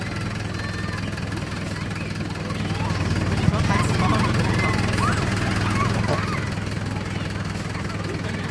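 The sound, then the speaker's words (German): Low, steady engine drone of a truck reversing, played through a loudspeaker, with a rumbling hum and layered harmonics that swell slightly through the middle, plus a single sharp click partway in. “die werden jetzt denken, sie haben einen LKW im Heck. Nein, es ist nicht so. Es kommt nur aus dem Lautsprecher. Jetzt fährt er rückwärts.”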